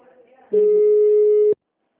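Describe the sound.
An unanswered telephone call: one steady, loud mid-pitched ringback tone lasting about a second, then silence, with a faint voice murmuring just before it.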